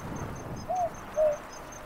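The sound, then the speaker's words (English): A boobook owl calls in spinifex desert country: two soft, low hooting notes in succession, faint against a steady background hiss. “That's a boobook. It's a type of owl, not a night parrot.”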